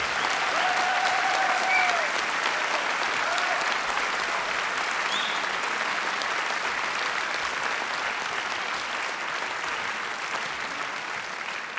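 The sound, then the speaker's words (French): An audience gives a jazz bassist a long ovation of sustained applause after a concert performance, a dense, even roar of clapping that stays loud throughout, with a few faint whistles at the start. “Je voudrais vraiment que vous fassiez une ovation extraordinaire.”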